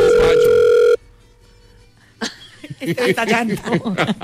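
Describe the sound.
A telephone tone from an unanswered call: one steady, clear tone holds for about a second, then cuts off into near silence before people start talking.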